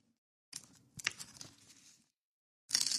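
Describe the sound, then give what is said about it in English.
A samurai sword with goo on its blade scrapes and tears at a paper letter. Two rough, crinkly bursts of tearing and rustling are separated by a brief silence. “Slicing it, holding it down is not working either. It's because it's got like that goo. Got that goo on the samurai sword thing's not cutting it for a letter opener.”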